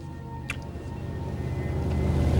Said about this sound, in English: A small powerboat motors gently from a darkened harbor under a black sky.